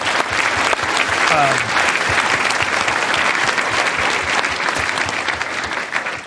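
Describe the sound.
Audience applause at a live talk event, a loud, steady round of many hands clapping that holds evenly for about six seconds before easing slightly.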